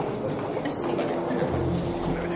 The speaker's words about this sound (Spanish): Están en una estación de metro.